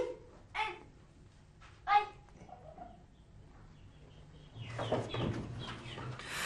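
Chickens kept with goats and sheep in an abandoned flat cluck faintly, with two short squawky clucks early on. Quieter scattered sounds follow, and a broader low noise rises toward the end.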